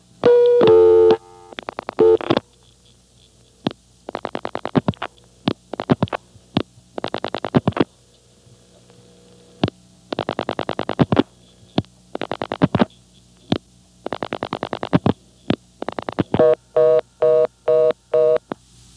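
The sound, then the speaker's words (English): Telephone dialing tones as the digit 5 and then seven more digits are dialed on a party-line system, short sharp tone bursts in clustered groups separated by brief gaps, with no speech. “So, I'll demonstrate this. First, I'll dial 5 plus my own 7 digits.”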